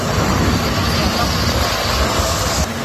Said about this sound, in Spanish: ¿Escucha? Mira el helicóptero donde está echando.